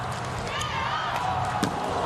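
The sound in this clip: A volleyball serve struck by Leon in a Polish team match: one brief, sharp hit cuts through a steady roar of crowd noise.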